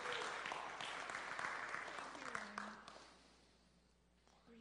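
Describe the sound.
Applause from an audience welcoming a speaker onto a stage on a morning, with dense steady clapping that gradually fades away toward the end.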